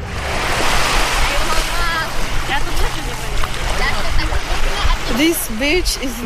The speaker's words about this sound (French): Cette plage s'appelle Marbella, la belle mer. C'est la même mer qu'en Israël, mais depuis la rive opposée.